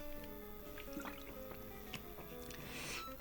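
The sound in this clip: Water is poured for someone, heard as a faint, brief trickle with a few light drips, ending in a short, brighter pouring splash.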